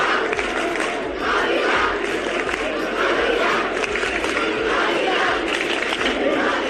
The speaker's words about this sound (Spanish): Con los cantos en apoyo al Real Ávila comenzamos los deportes.